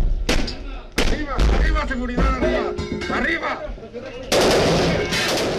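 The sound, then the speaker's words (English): Gunfire from a gun battle, captured on a Mexican Marines helmet cam: sharp, loud shots in a few separate bursts, then dense, sustained rapid fire near the end, with voices shouting in between. “You're listening to the actual gun battle, all recorded by helmet cam of the Mexican Marines.”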